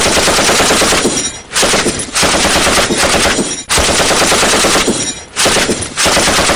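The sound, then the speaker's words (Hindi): Loud machine gun fire in cross-border fighting in Jammu and Kashmir: long, dense bursts of rapid shots separated by a few brief gaps. “कई kilometre और सरहदी गांवों में भी गोलियों की गड़गड़ाहट शत्रु की मौजूदगी का एहसास कराती थी।”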